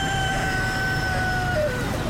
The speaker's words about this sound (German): irgendwo kräht ein Hahn